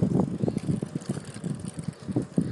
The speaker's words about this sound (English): Riding on the forest bike path to work.